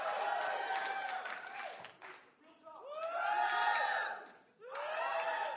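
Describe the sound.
An audience cheers and applauds in loud waves of clapping mixed with whoops and shouting voices, dropping briefly twice before swelling again.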